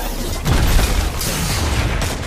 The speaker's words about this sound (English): There's one on me. Shadow shot, watch out.